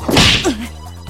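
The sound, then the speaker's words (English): A crouching attack lands on the opponent in a fighting video game. A punchy thwacking impact is followed by a brief tonal swish, then a low steady drone. “Objective, hit the opponent with a crouching attack.”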